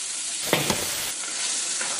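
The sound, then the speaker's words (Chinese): Rice cakes stir-fried with eel and meat in a hot wok give a steady, bright sizzle, broken by a couple of short, louder scraping stirs early on; no one speaks. “鳝鱼香已经特别特别诱人了，现在可以加入我们今天辛勤做的这个印子粑了。 印子粑一下锅就裹上了一层酱色的外衣，”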